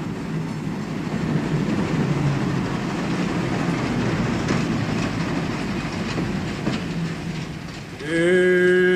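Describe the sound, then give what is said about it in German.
A passenger train rolls into a station with a continuous heavy rumble and a rhythmic clatter of wheels. Near the end, a loud, sustained tonal blast cuts in. “Das ist Ihr Zug.”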